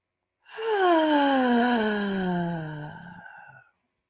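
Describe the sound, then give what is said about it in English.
A long, voiced sigh lets out a deep breath with sound. A single moaning tone lasts about three seconds, sliding steadily downward in pitch before trailing off into breath. “Let's take a deep breath, inhale for four, and let it out with sound.”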